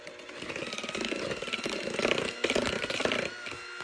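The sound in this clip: An electric mixer beats cake batter as a third of a cocoa mixture goes in, giving a continuous buzzing motor whir with a rough, rattling texture at fairly even loudness.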